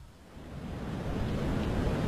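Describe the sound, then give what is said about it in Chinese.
Sea waves lapping against a ship under a starry night sky make a steady, dense rushing wash that swells slightly louder partway through, with no voices. “星空下海浪拍打着青龙船”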